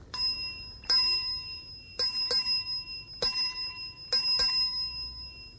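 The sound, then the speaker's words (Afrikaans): A small hand bell, once used at a sickbed, rings in several irregular strikes. Each is a bright metallic ding with a lingering tail, faint and alone over a low hiss. “Het is al die klokkie wat mama gebruik het wanneer ons siek was.”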